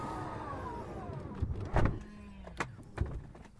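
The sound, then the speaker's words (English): A Tesla Model X car door powers shut: a motorised whine runs first, then a solid thud lands near the middle, followed by a couple of softer clicks as the door latches. “Even I got the chance to try out the Tesla for myself. That noise you're hearing is the door closing.”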